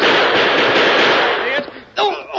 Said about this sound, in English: Well, I'll be doggone. Never saw such shooting in all my life.